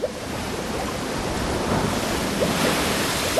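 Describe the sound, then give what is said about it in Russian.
Surging waves churning on a dark river, a loud, steady rushing wash of water that builds slightly toward the end, with no voices. “Тут закипела вдруг вода в черной реке. Волна за волной пошла, горами вздымаются.”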